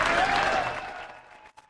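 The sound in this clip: Audience applause follows a 1990 live concert by a Texas honky-tonk country band in Europe. The dense clapping starts loud, then thins and fades out within about a second and a half.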